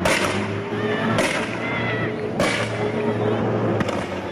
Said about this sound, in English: Here's some video shot by a bystander as police went down the street, really letting go with the tear gas.